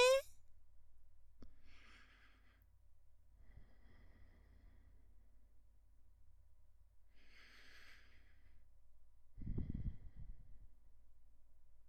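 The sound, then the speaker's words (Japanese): Slow, deep breathing in and out during a guided relaxation before sleep: a few soft, airy breaths spaced several seconds apart, quiet and alone, with the last exhale lower and fuller. “深呼吸いたしましょう。私の後に続いてください。吸って、吐いて、”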